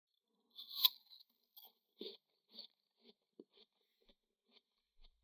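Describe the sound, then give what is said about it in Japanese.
An apple is bitten and chewed: a crisp opening crunch, then many quieter crunching and chewing sounds spaced out irregularly and growing fainter, with no talk. “そうそう、頂戴したリンゴを私もいただきましょう。”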